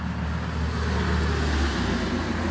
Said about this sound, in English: I'm in the middle of New York City. That's why you hear all the traffic.